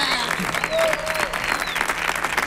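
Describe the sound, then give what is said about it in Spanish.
Audience applause: dense, continuous clapping from a crowd that holds at an even, fairly loud level for the whole stretch. “Para el Tom, por favor, un aplauso”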